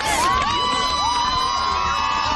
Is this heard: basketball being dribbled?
no